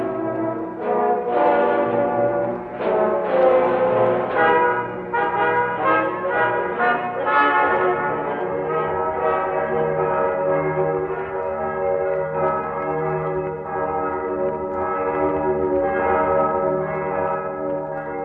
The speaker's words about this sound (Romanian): Clopotele bat ora nămiezii.